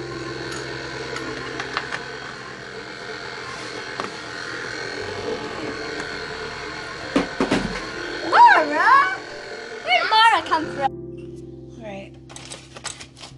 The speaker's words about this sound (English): When I add this, can you turn on the mixer? Yeah. There we go.